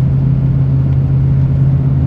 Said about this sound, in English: as I drive on these side roads, the speed limit is 45 miles an hour. Oftentimes, I drive at a slower